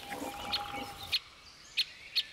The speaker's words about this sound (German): Auch die Buntspechtküken sitzen in ihrer Höhle fest. Sie können noch nicht fliegen, dafür aber umso ausdauernder nach Futter betteln.